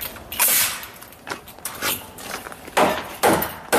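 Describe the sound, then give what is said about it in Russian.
A nail gun firing nails during construction work: several sharp, percussive shots with short hissy bursts, spaced irregularly, the last couple loudest. “Видите, у него такой инструмент, который гвоздями стреляет.”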